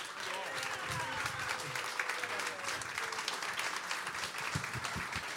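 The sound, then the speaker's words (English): Live audience applause for guests at a show about the WIXY 1260 AM radio station, a thick, continuous wash of clapping with voices faintly mixed underneath. “Well, listen, got to wrap this up, but give it up for these guys,”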